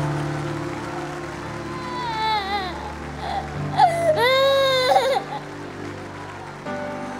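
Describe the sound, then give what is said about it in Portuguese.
A little boy cries in a few rising and falling wailing bursts, the longest near the middle, over a steady low hum, with quieter stretches between the outbursts. “Só que o menino já começa a entender. Naquele momento ele começa a chorar. Chora. É forte demais.”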